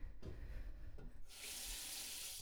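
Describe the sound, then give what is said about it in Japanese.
Tap water runs into a washbasin, starting after a few soft knocks and then holding a steady, bright hiss to the end. “おお洗面台流してみました。”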